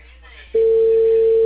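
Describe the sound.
A telephone line tone heard while a call is placed. After about half a second of low hiss, a single steady, mid-pitched tone begins abruptly and holds loud and unbroken to the end.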